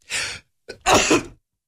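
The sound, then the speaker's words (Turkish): A sneeze on air during a live broadcast: two harsh, breathy bursts, the second louder and longer after a brief catching breath, with no talk around them. “Bazı sorular geliyor böyle yayında hapşırasınız geldi mi ne yapıyorsunuz diye hapşırıyoruz.”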